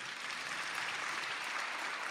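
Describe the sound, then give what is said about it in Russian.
Audience applause: dense, steady clapping from many hands, fairly faint and continuing evenly without a break. “Мы еще раз похлопаем для вас.”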